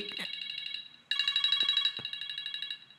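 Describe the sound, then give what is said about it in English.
A mobile phone ringtone goes off: a bright electronic melody of pulsing tones that dips briefly, then returns louder and steadier until the end. “Oh, that's my phone. Sorry, guys.”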